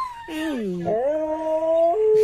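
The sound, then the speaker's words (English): Two dogs howl to each other over a video call: a long wavering howl dips and then rises, holding a steady tone before shifting to a lower pitch near the end. “it starts with the first dog, and then the other dog starts howling”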